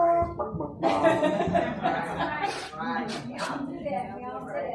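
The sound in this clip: A voice imitates a rooster crowing with loud, drawn-out strained calls, followed by a few shorter wavering vocal sounds.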